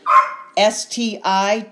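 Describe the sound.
A dog barks in a rapid series of several loud, sharp, yappy barks with short gaps between them, the last one cut off at the end.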